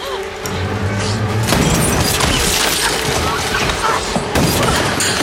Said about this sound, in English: A sniper fires from a nearby building.